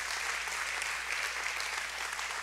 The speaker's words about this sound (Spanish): Come on, yeah, un aplauso.